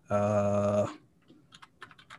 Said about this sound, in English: Why do I keep tapping the wrong computer?